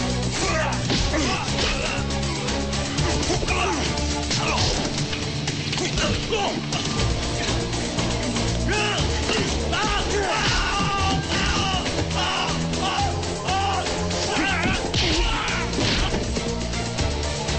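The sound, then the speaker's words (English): A fistfight between a gunman and other men against one man, with punching and kicking: a dense, continuous clatter of many thuds and crashes, loud throughout, with shouting mixed in. “A gunman approaches Glass, and they start punching and kicking each other. Other guys join in, and Glass fights them.”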